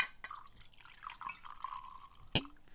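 A faint liquid drip of Jura single malt Scotch whisky in a glass: quiet wet trickling, then one sharp, brighter splash near the end.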